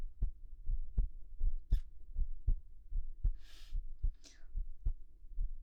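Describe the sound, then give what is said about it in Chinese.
A steady heartbeat, felt through close contact in an intimate moment: many regular low thumps in lub-dub pairs, with a few brief rustling bursts between beats and no talk. “还有我的心跳声。”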